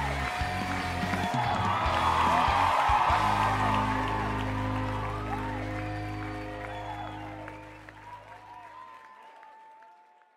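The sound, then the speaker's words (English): Audience applause with cheering and whoops greets the host of a talk show. It swells for the first few seconds over sustained music, then gradually thins and fades away. “Ladies and gentlemen, put your hands together and help welcome your friend and mine, Kevin White.”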